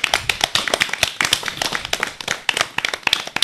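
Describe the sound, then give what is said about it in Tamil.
Audience applause praising a student's Tamil pronunciation: many quick, crisp hand claps overlapping in a dense, lively patter that stays steady throughout. “ஜாய்சியின் Tamil உச்சரிப்புக்கு நாம் அனைவரும் பரத்த கரவொளி எழுப்பி நம் பாராட்டுக்களை தெரிவிப்போம்.”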